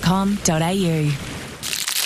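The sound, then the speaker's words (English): The foil wrapper of a Lindt Lindor chocolate truffle crinkles briefly at the end, following a stretch of drawn-out voice. “Do you know that sound? Of course you do. It's the unmistakable sound of unwrapping a Lindt Lindor truffle.”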